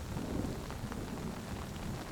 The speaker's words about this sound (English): You enter the forest. An invigorating splash of raindrops cools your face.